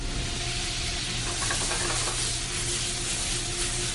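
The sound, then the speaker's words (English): Beef for lomo saltado sautés in a hot pan, a dense and continuous sizzling hiss that holds at an even level throughout with no talk. “I start sauteing the meat so that I can get flame, so the meat get a flavor on it.”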